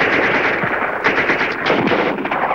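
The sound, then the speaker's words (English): Automatic rifle fire in a barrage during combat in wooded terrain: dense, rapid shots blur into a continuous loud crackling rattle that lasts the whole time, with no voices. “Sergeant Kinney pops up long enough to cover Kip's advance with a barrage of automatic rifle fire.”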